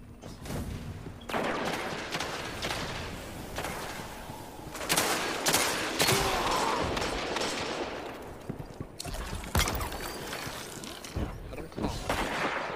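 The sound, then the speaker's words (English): Mechanical clacks and ratcheting weapon-handling sounds come as a player switches to a sniper rifle during a capture-the-flag shooter video game match. Bursts of gunfire and other clattering game noise run throughout at a steady level. “Now that we've taken over their spawn, I'm gonna change weapons. Give me a second. I need to switch to my sniper.”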